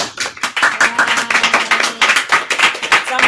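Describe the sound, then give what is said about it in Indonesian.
Clapping from an audience closing a talk about choir singing: quick, irregular claps from a modest group, crisp and fairly loud throughout, with no voices standing out. “teman-teman semuanya berikan aplaus”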